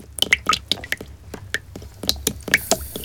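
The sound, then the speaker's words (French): Water runs over hair at a salon washbasin, giving wet, squishy drips and small splashes in an irregular patter of many quick events, with no voices. “Tu entends le bruit de l'eau qui coule sur les cheveux ?”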